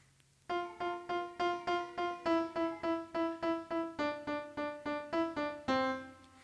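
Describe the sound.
A piano's left-hand part of a song, played alone: many repeated notes in a steady, even rhythm, each a clear sustained tone, with no voices.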